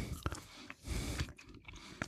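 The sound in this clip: Faint, moist chewing of a purple fruit gummy made from a fruit-flavoured mixture rather than real fruit, with soft squishing bites and a few sharper clicks scattered through the stretch.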